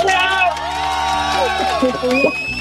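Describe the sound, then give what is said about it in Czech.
Many voices of a gathered crowd chatter and shout behind a caller on a radio phone-in, carried over the phone line. Excited calls and high-pitched shouts overlap in a busy, continuous babble. “To je radosti, vás tam je teda hodně, poslouchám tam hlasy.”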